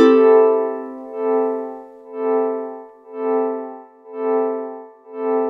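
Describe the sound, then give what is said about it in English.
Electric guitar chord swelled in with the volume knob: after an opening ring, the chord rises and fades smoothly about five times in a steady, wave-like rhythm, with no sharp pick attack. “Right after I strike the chord, then I bring the volume up and back down.”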